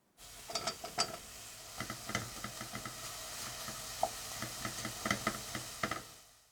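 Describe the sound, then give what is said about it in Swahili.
Sliced mushrooms sizzle in a pan of softened onions, a steady frying hiss dotted with many small crackles and clicks as the food is stirred. “Sasa ongeza uyoga, vitunguu vikishakuwa angavu na uviache vianze kukauka kidogo.”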